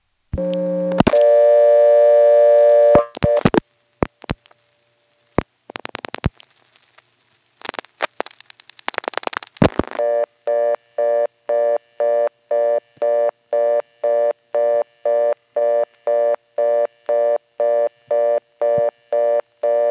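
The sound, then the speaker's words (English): Telephone reorder tone, the fast busy signal, on a phone line. A few clicks and short tones lead into a steady, loud, rapid on-off pulsing of a two-note tone that repeats evenly to the end. “I did a flash that wasn't quite long enough to fully disconnect, and we heard the reorder get softer for a minute and then go away.”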